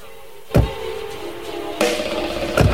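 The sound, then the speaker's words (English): Car doors thud as a couple climb into a car parked at the roadside: three sharp knocks over a steady low hum, with no voices. “The couple get into a car parked at the side of the road.”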